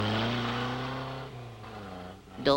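A car drives by in an animated scene with a steady, low droning engine tone whose pitch sinks slightly, ending in a short, sharp burst of higher noise.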